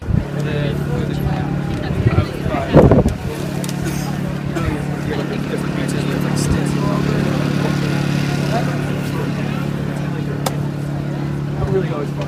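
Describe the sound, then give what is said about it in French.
A generator hums at the dawn start of a trail race near Zion National Park, a constant low drone under murmuring voices, with a few louder knocks in the first seconds. “Il n'y a pas d'éclairage public, donc euh, un groupe électrogène éclaire le départ de la course.”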